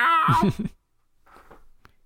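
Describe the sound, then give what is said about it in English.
A voice imitates a cat's meow in one short, high, wavering call, followed by near silence with faint rustling and a single soft click. “Meow.”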